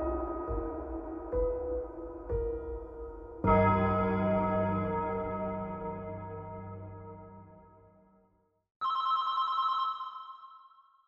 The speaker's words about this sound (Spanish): Una llamada anónima llega a la comisaría de West Manchester.